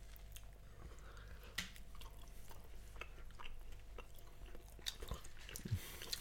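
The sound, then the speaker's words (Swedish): Faint chewing of tapas, chorizo and Spanish salami, with soft, irregular wet clicks and smacks over quiet background noise. “Och det är säkert jättebra radio när vi står och äter upp en hel tapasbricka.”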